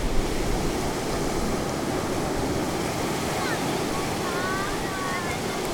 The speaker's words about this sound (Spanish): a mí el sonido del mar me parece muy espectacular. Me parece como si fueran las caracolas, esas así que hacen, ¿sabes? Y el choque de las olas con unas con otras al romper es muy bonito.